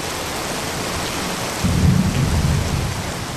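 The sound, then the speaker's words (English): Torrential summer evening downpour in Belo Horizonte, Brazil: a heavy, steady hiss of rain throughout, joined partway through by a deep, loud rumble of thunder that rolls on beneath the rain to the end. “So what you're hearing now is actually the sound of what they call summer rain. Every night in the evening, for about 20 minutes, there's just this torrential downpour.”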